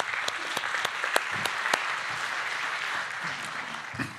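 A church audience applauds during a service as a woman is welcomed up to give her testimony. Steady, moderately loud clapping from many hands runs throughout, with a few sharper individual claps standing out.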